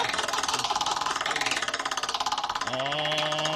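A prize wheel spins with rapid, even ticking for about two and a half seconds, then a sustained tone takes over.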